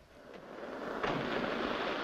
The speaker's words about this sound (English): In dull daylight, sea washes up on a deserted beach which borders a sand-covered road.